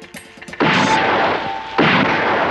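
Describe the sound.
Gunshots ring out at outdoor target practice as bottles are shot at: two loud, booming blasts, each followed by a long, rough ringing decay.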